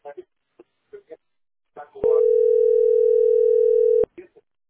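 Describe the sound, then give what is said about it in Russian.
A single steady telephone tone sounds for about two seconds, unbroken and even in pitch, while people talk briefly before and after it. “звонок у тебя идет”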